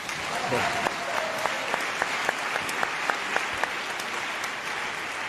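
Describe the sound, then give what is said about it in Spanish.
Audience applause rings out as a steady, dense wash of clapping that holds at an even level for several seconds, with a few sharper individual claps standing out. “Aplauso.”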